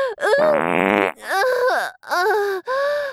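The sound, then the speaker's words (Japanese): A fart: one drawn-out, buzzy, rasping blast lasting well under a second, set among several long, loud vocal groans with rising and falling pitch. “また出そうですよ。あ、出るおなら”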